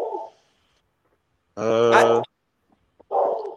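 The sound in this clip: A dog lets out one drawn-out, loud, harmonic bark. Brief murmuring sounds come before and after it, separated by silence.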